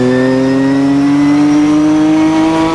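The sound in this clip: A race car's engine drones loudly as it accelerates up a hill, its clutch slave cylinder failing. The steady, buzzing tone climbs slowly in pitch over the whole stretch, with no talk.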